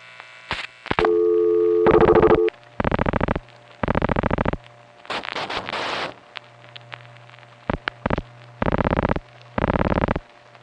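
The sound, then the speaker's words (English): Multi-frequency signalling tones pass between telephone exchanges toward a crossbar tandem: a series of steady electronic tone bursts of varying length, separated by short gaps, over a constant low hum and some hiss. “You don't hear the dial pulsing, but you do hear Midtown MFing to King's.”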